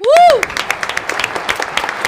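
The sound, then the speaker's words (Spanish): Studio audience applauding, scattered, moderately loud claps following a brief whoop-like vocal tone at the start, continuing unevenly to the end. “Es la única a la que aplaudimos, ¿eh?”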